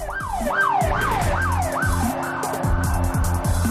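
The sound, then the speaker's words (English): Police patrol cars drive past with sirens wailing: a rapid, repeating rising-and-falling whoop, loud and continuous, with overlapping siren tones and road rumble underneath. “Sam grins to himself as more police patrols drive straight past him”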